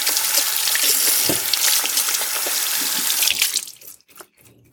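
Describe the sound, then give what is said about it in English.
Water runs steadily from a kitchen tap as hands are rinsed during cooking, a dense, even hiss with small splashes; near the end the flow shuts off, leaving a few soft knocks. “I'm gonna rinse my hands real quick.”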